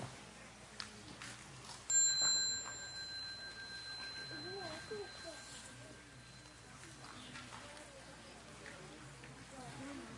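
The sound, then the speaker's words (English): A small meditation bell rings once to dismiss children from a gathering, its clear, high tone sustaining for several seconds before fading, with soft voices murmuring underneath. “when you hear the next bell, you bow to the Sangha and you go out.”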